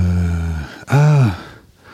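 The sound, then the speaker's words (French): Heavy breathing from someone catching their breath after a walk: two long, voiced exhales, the second louder with an arching, sigh-like tone, then near quiet. “Surtout que je viens de faire une balade là et du coup... faut que je reprenne mon souffle un peu.”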